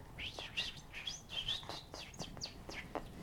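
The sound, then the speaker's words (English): Bird chirping outdoors: many quick, high, bright tweets and short trills come one after another in an irregular run, fairly faint over a soft background hiss. “Look at the birdie. Look at the birdie. That's the sound the birdie makes.”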